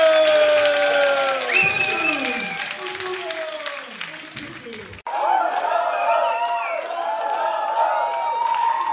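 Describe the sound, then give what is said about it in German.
Applause and cheering from an audience in a German show, mixed with loud voices and shouting over the clapping. The sound cuts abruptly about halfway through, and the clapping and crowd noise carry on after the break. “Applaus für Pepsi!”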